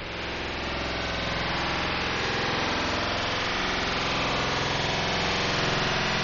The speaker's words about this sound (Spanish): cogemos un arco de cielo y mirando por ahí, cogemos los datos de WMAP y los convertimos a sonido.